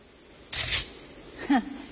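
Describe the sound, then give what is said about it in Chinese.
A camera takes a photo with a single quick, bright shutter burst, and a short vocal sound follows a moment later. “那我得给你们拍张照片呢”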